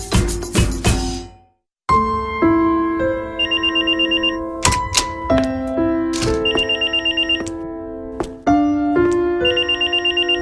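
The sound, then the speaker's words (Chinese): A home telephone rings with repeated bright electronic trilling rings, following a few dull thumps and a brief silence at the start. “做乜咁耐先听电话？”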